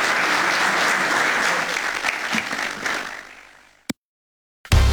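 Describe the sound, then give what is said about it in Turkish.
An audience applauds strongly as a president is sent off at an official event. The clapping is dense, loud and steady, then thins and fades after about three seconds before the sound cuts to silence. “Sayın Cumhurbaşkanımızı saygılarımızla ve kuvvetli alkışlarımızla uğurluyoruz.”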